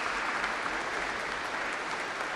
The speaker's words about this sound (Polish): Brawa, bo jeszcze chyba nie było ich takich jak trzeba.